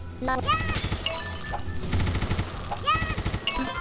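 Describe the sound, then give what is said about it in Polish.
Machine-gun fire in a video game: rapid bursts of electronic shots, layered with chirpy, sweeping synthetic game tones that rise and fall around the firing, continuous and fairly loud. “Tutaj jest machine gun właśnie i możemy strzelać z niego na zasadzie tej.”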